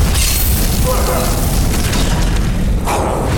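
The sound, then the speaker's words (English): A fire spell explodes in a video game, a firebolt bursting into a dense, roaring boom. Broad rumbling noise fills the whole stretch and stays loud and fairly even from start to finish. “Firebolt. I need lots of firebolts. I just set my buddy on fire.”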